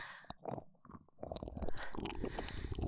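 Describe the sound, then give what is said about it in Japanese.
Chewing and biting as someone tastes another person's food: faint, wet, squishy mouth sounds in an irregular run that grows busier and denser in the second half. “私が美味しそうに食べるものだから、つい味見がしたくなった。”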